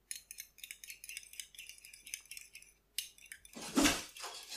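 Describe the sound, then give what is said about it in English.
A utensil stirs eggs with salt, pepper and milk in a bowl, making quick, bright, rattling clinks against the side in a steady run, with a short pause and then a louder, denser burst of clinking near the end. “Next, we add a little bit of salt and pepper. A little bit of milk, and we stir this up.”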